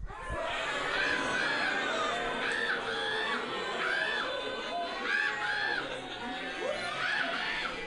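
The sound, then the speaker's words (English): A comedy-club audience imitates animal sounds on cue, with many voices hooting, crowing and whooping at once, mixed with laughter and chatter. Repeated wavering vocal calls overlap in a loud, jumbled burst. “All right, so on a count of three, we're going to make the best animal sounds, okay? One, two, three.”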